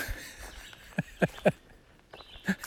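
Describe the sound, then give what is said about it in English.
A bird calls near a tent, four short, sharp notes, three in quick succession and then a final one after a pause, fairly faint over a soft background hiss. “Oh, the bird went silent. Oh, there he's back. There's a bird here that goes,”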